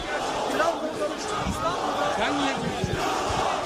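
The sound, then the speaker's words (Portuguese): A crowd waits at Atatürk airport for the arrival of a star footballer, shouting and chanting in a continuous, loud, dense roar of many voices, with a few sharper yells standing out. “Uma multidão à espera do craque no aeroporto de Ataturk.”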